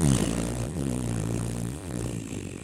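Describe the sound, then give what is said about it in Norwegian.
A mouth imitates a long cartoon fart, a low, buzzing lip raspberry that holds for the whole stretch with a wobbling pitch and two brief dips, fairly loud and alone. “den lengste prompen jeg har slippet I. Altså sånn kjempe sånn tegneseriepromp da. Ikke sånn ekte promp. Det som et barn som lager promp med munnen.”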